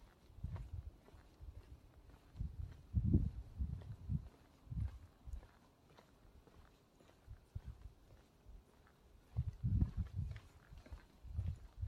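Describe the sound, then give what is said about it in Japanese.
Footsteps walking through a quiet residential street, many soft low thuds in an uneven rhythm, faint throughout with brief louder clusters. “稲川淳二の怖い話に出てくるとこを今歩いてるんですけども、まあ、特に怖いことはないですね。普通の住宅街なんで。”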